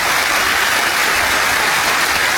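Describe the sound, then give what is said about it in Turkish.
Applause at a university graduation ceremony, a loud dense wash of many hands clapping together that holds steady and unbroken throughout. “Ondan güçlü bir alkış rica edelim.”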